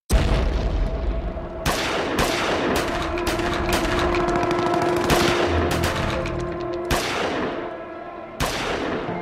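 Loud gunfire and explosions of an armed assault during a night in January 1975: dense, continuous volleys of sharp shots and booms, with a few heavier cracks standing out from the din.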